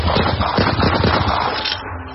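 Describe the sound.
Gunfire at a harbour: a rapid burst of sharp, repeated shots in quick succession, loud throughout, easing into a dull, lower tail at the end.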